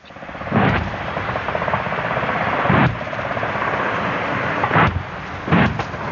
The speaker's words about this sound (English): of a live fire exercise taking place near Townsville in Queensland, Australia.